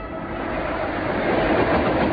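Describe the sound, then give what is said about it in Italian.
Local Trapani–Palermo passenger train running on rails near Cinisi at night, heard as a steady, continuous rolling rumble with broad noise and no distinct wheel clacks or voices. “Il treno locale Trapani-Palermo sta attraversando la località Feudo, pochi chilometri da Cinisi.”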